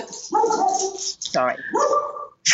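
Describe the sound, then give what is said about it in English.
Pet dogs bark at home in a few short, yappy bursts mixed with whining, each burst harmonic and fairly loud, following one another in quick succession. “dogs, meet my dogs. That's all right. The joy of working from home, as we've all discovered.”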